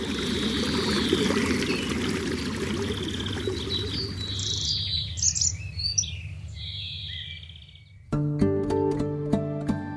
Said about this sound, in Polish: Strumień wskazany Mariecie przez Maryję jest miejscem wielu cudów.